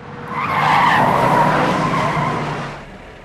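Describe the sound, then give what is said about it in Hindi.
A car braking to a sudden stop, its tires skidding and squealing in one loud, sustained screech that swells, holds for about two seconds and then fades away. “What happened? Stop the car.”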